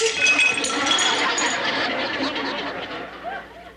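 A small plate smashes in a 1970s sitcom scene, giving a bright clattering crash at the start whose ringing shards fade away over a few seconds.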